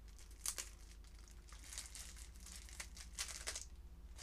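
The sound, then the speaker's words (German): Thin plastic film wrapping crinkles and tears as it is opened on a pack of Uno cards: soft, irregular rustling and crackling with a few sharper bursts, quiet throughout and without talk. “Oh mein Gott, wie geht das auf? Hier ist so ein kleiner Fitzel von der Folie und da muss man es eigentlich aufmachen.”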